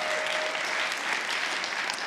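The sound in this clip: Audience applause rises as a dense, even wash of clapping that holds steady throughout with no voices over it.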